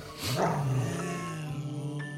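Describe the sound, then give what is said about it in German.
A dog growls and barks, with a throaty, rising growl-bark near the start that trails into a quieter, rumbling tail, heard alone without talk. “Das ist ein Hund. Ja, das ist ein Hund.”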